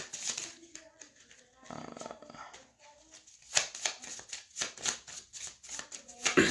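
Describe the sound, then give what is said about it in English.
Playing cards are discarded and drawn during a card game, making soft papery flicks, slides and snaps. The many quick, light transients are faint and irregular, with a brief rustling stretch partway through. “Discard my hand. Draw four cards.”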